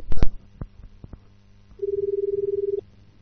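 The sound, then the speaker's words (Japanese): A few sharp clicks and taps come first as a phone call to a mobile carrier is placed. A single steady line tone with a fine rapid pulse follows and lasts about a second before cutting off. “今から電話かけまーす。出るか出ないかわかりませんけども、かけてみようかなと思います。”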